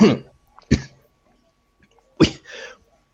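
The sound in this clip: A voice imitating a cultist's cough during a fantasy tabletop role-playing game: three short, harsh bursts with gaps between them, the last trailing into a rougher rasp.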